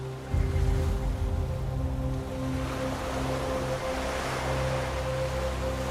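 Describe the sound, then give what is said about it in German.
Water washes steadily around a gently rocking boat moored in a lagoon at night, a continuous soft surging hiss with a low, even hum beneath it and no voices. “Das Boot schaukelt beruhigend hin und her.”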